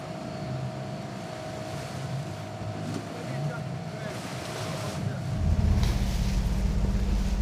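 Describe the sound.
An auxiliary motorboat ferrying goods between ships drones on the water amid wind noise, its low engine rumble growing noticeably louder and heavier in the final seconds.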